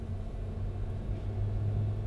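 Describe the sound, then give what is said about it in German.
Tram crossing a bridge, heard as a continuous low-pitched rumble. It stays fairly quiet and steady, with no distinct events. “Die Menschen im Tram, das jetzt über die Brücke fährt”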